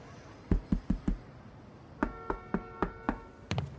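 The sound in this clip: Sharp knocking on a door: a quick run of four raps, then a second evenly spaced series of raps under a faint steady tone, ending in a rougher final knock.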